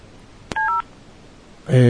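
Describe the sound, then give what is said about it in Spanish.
Two short dual-tone keypad beeps, a click before them, as a telephone number is dialed to place a call. A voice follows shortly after. “Vamos a ver, estamos llamando directamente, vamos a conectarlo al aire.”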